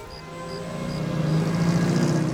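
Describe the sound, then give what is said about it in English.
A motor car drives along a road through fields of wheat, its engine a steady droning hum that gradually grows louder over the short stretch, with no voices. “A motor car drives along a road through fields of wheat.”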